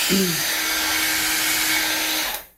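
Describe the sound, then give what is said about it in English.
A hair dryer blows on a balloon, warming it so it stretches and loses its wrinkles. It makes a steady rushing whoosh with a thin hum running through it, then cuts off at the end. “we're going to help it here a little bit with a hairdryer to get some of these wrinkles out”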